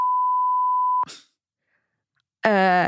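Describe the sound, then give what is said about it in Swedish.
A censor bleep covers words in a Swedish conversation: a steady pure beep lasting about a second, then a brief breath and silence before a voice resumes. “Och bipa det här.”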